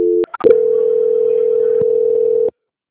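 A steady telephone tone plays during a call transfer: a couple of brief clicks and beeps, then one continuous, even hum lasting about two seconds before cutting off.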